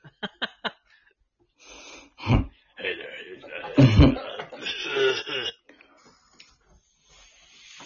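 A person clears their throat with a few rough, raspy hacks and short coughing bursts, preceded by quick faint clicks.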